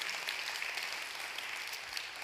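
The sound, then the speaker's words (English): A church audience applauds to welcome guests, a dense, steady patter of many hands clapping that holds at an even level throughout. “If you're a regular here at the Bridge, why don't we just put our hands together and welcome all of our guests to church today.”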